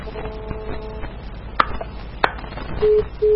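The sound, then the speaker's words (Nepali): Phone line tone after the caller hung up: two short, steady beeps near the end, preceded by a noisy line with faint tones and a couple of sharp clicks. “फोनै काटेर गइहाल्नु भयो अब के गर्ने आवाजै आउँदैन”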